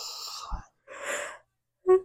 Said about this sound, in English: Stop fucking yawning, damn it.